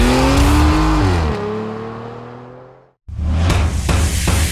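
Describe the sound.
Racing car engine revving for a go-kart sim racing advert: a loud, high rev that steps down in pitch as if changing gear and fades away. After a brief silence, a loud rushing burst follows.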